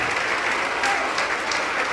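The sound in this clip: Applause from a church audience, a dense, steady wash of many hands clapping that holds at an even level for the full two seconds with no clear break.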